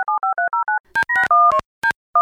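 Telephone keypad tones as a call is placed: six short, evenly spaced two-note beeps, then a few longer, irregular dialing tones after a brief pause. The beeps are clear and moderately loud, with no voices.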